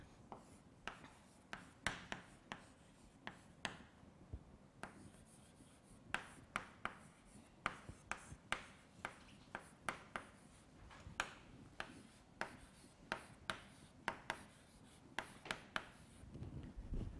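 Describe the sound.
A pen writes a word by hand, the German word for fog, as many short, scratchy strokes in an uneven rhythm. The strokes are faint, with brief pauses between bursts, and no voices.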